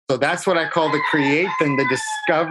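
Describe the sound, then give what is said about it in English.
A rooster, one of Hawaii's jungle fowl, crows in the background while a person keeps talking over it, its call partly buried under the steady speech. “you're hearing a rooster in the background because I'm in Hawaii, in which roosters are what we call jungle fowl and they're everywhere.”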